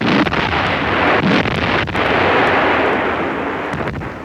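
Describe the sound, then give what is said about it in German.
Artillery batteries of all calibres open fire along a 500-kilometre front against Soviet positions on an October morning. A loud, dense, continuous roar of booming shots is broken by sharp cracks and bursts throughout. “Auf einer Frontbreite von 500 Kilometern eröffnen Batterien aller Kaliber das Feuer”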